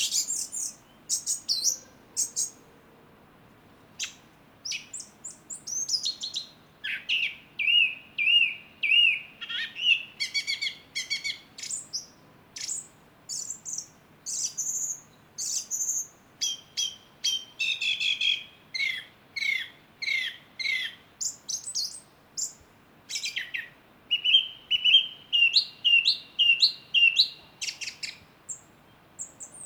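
A thrush sings from an ivy bush in a garden at night, a lively, chirrupy and variable song of many short, high phrases, some fluty and some trilled, separated by brief pauses and repeated throughout.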